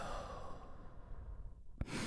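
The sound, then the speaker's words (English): A slow, deep exhale follows a big breath taken during a guided relaxation. It is a soft, breathy rush of air that thins out gradually, faint and alone, with a brief click near the end. “We're going to take a big, deep breath all together right now. Here we go. And release.”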